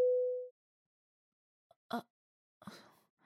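Phone tone after a call is hung up: a single steady beep lasting about half a second, then silence broken by a few faint, soft sounds.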